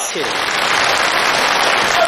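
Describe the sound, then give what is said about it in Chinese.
Audience applause at a xiangsheng comedy show, a loud, dense, steady clapping with voices under it. “通过您的掌声跟笑声啊，听得出来”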